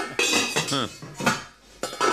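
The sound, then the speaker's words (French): Pots and pans clatter and clang in loud metallic bursts, several jangling crashes with a short quieter gap partway through. “C'est quoi ce bruit, là? Pourquoi ils ont pris une voiture de mariée pour le corbillard? C'est pas une voiture de mariée, c'est le bruit des casseroles.”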